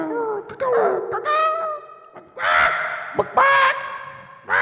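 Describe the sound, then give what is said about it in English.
A person's voice imitates bird sounds with a few loud, strained, warbling cries and caw-like calls, each tonal and drawn out, separated by short breaths. “We make bird sounds on the Todd Glass Show.”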